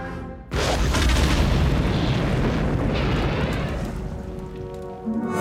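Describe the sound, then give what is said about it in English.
A huge starship explodes with a sudden loud boom that swells into a long, dense roar and rumble, easing slowly over several seconds, with a small extra burst near the end. “It just exploded.”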